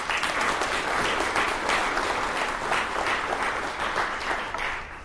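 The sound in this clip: Audience applause welcomes a speaker onto the stage at a lecture, a dense, steady wash of many hands clapping that holds at an even level for the whole stretch and eases slightly at the end.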